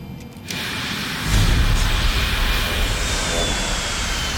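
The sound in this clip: A steady, loud roar fills an airplane cabin as the aircraft nears landing in Miami, its broad engine drone stepping up slightly early on and then holding even.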